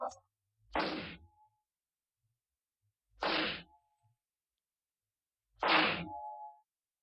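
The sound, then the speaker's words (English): Three pistol gunshots ring out in a shooting match in an audio drama. They are evenly spaced sharp cracks, each with a short decaying tail, and there is silence between them. “You uh, take the first three shots? Very well. And just check that it's loaded. Yes, six bullets.”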